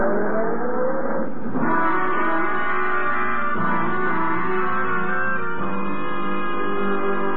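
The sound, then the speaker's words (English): A taxi drives off fast, its car engine revving hard in a loud, continuous roar whose pitch climbs and drops back at a few gear changes. “Hey, taxi! West 15th, and step on it.”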